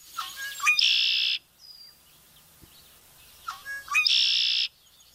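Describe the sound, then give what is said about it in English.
A red-winged blackbird calls from its perch in the reeds, giving two loud songs. Each starts with clipped stuttering notes and ends in a harsh buzzing trill, with a quiet pause between them. “That's the sound of the red-winged blackbird calling from its perch in the reeds, signaling summer, to me anyway.”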